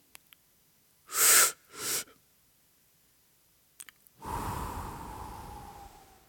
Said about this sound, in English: Yes, that is how I inhale anything that I smoke. Quite harshly.